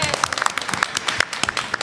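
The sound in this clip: An audience claps to welcome a guest on stage at a talk series. Many quick, scattered claps form an uneven patter that continues for the whole moment.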